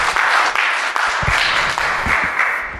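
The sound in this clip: Audience applause at a church sermon welcoming a preacher: a steady, loud wash of many hands clapping that carries on throughout.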